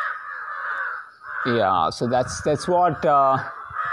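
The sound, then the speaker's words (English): Crows caw outdoors in Kerala in the early evening, their harsh calls running behind a person talking over a steady background hiss. “You can hear the birds chirping, specifically the crows.”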